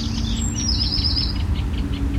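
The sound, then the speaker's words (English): A lapwing gives a single high call that slides downward in pitch, heard over a steady low rumble. “Lapwing.”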